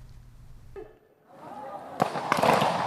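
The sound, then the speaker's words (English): Gunfire from soldiers firing weapons, some lying face down, during a live-fire military exercise at a base: a few sharp, loud cracks with noisy rumbling between and after them. “Soldiers stand at the ready while others lie face down firing weapons during live fire exercises.”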